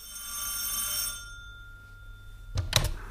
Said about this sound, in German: Da läutete das Telefon.